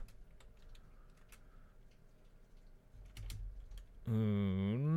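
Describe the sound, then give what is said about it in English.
Typing on a computer keyboard: faint, scattered clicks and short bursts of keystrokes over quiet background, then a loud voice cuts in at the end. “let's see if I can type now.”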